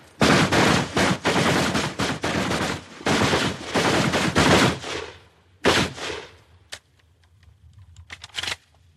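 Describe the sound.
Rapid gunfire from a standing speed drill at a large target: a dense run of loud, sharp shots through the first half, then a few isolated shots spaced out toward the end.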